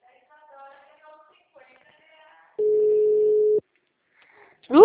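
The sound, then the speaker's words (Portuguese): Telephone busy signal: one steady, mid-pitched electronic tone lasting about a second, after faint murmured talk, with a brief rising sound at the very end. “Uhul! O número está ocupado.”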